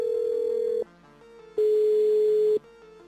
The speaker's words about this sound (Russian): Давайте попробуем позвонить. Точно такой же запрос.